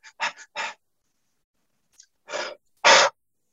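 Someone demonstrates a breathing pattern with sharp, audible breaths: a quick cluster of short puffs, a pause, then two stronger breaths, the last one the loudest.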